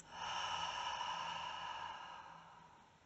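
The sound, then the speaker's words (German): A slow, deep breath taken during a guided breathing exercise: one long, soft, airy rush that swells quickly, holds, then fades gradually over about three seconds, heard alone with no talk. “einen ganz tiefen Atemzug durch die Nase nehmen. Und durch den Mund aus.”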